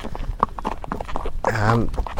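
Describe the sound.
Hooves of a horse trotting for a lameness check at an endurance-ride vet check, brisk and regular clip-clops throughout, with a voice briefly heard over them midway.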